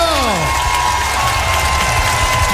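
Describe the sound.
Loud, sustained audience applause and cheering for a singer and her musicians at the end of a stage performance, a dense unbroken roar of clapping with a voice heard briefly at the start.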